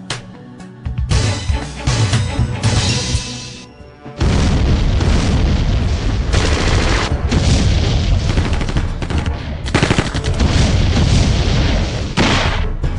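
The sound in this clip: Loud booming gunfire in a scene about firing 9mm rounds. The blasts come in dense, sustained bursts, with a brief quieter stretch early on and a deep, heavy low end throughout.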